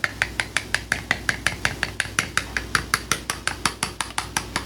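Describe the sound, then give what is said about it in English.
A spoon gently stirring raspberry jam, making a fast, even run of many light clinks and taps, steady in rhythm and clear throughout. “And it helps if you stir the raspberry jam a little bit to begin with.”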